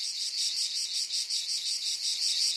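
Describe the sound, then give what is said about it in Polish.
A cricket chirping, a high, bright trill pulsing in a quick, even rhythm, heard on its own without other sounds. “Ja mówię, poczekajcie, nie rozmawiajcie. O, świerszcza.”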